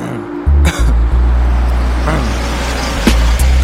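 A taxi car driving, its engine giving a steady low rumble throughout, with a few brief knocks and bumps over the continuous road noise.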